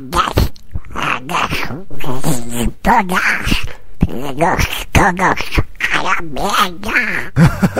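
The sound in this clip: A boy imitates a cartoon duck's quacking voice, a raspy, squawking, nasal babble that runs loud and almost without pause from start to finish.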